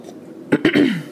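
A person coughs and clears their throat in two sharp, breathy bursts, then makes a longer voiced rasp whose pitch slides downward before it fades.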